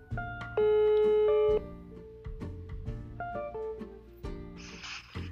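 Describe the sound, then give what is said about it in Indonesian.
A telephone ring as a call is placed: one loud, steady electronic ring lasting about a second, surrounded by softer shifting tones. “Jadi ya udah, yuk kita telepon aja ke Ibu Ika.”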